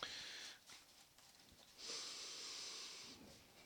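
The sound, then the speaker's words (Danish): Deep breaths are taken in two long, faint, breathy rushes separated by a quieter pause, with the second breath steadier and slightly louder. “Der bliver taget nogle dybe indåndinger.”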